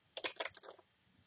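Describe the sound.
A short burst of quiet computer-keyboard clicks as the F11 key is pressed: several rapid taps packed into less than a second, then stillness.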